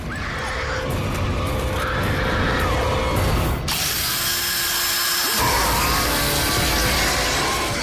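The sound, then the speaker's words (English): A hand drill bores into a creature's skull with a continuous grinding whir that runs unbroken, its tone shifting abruptly partway through before grinding on steadily. “Greg fumbles in his backpack and pulls out a hand drill.”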